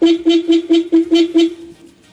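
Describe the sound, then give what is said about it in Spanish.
A horn honked quickly about seven times in a row. The short, even-pitched blasts come at a steady rhythm, then the last one fades into quiet. “¡Ay! ¡Me tocaron el pito! Papi, tóqueselo otra vez, otra.”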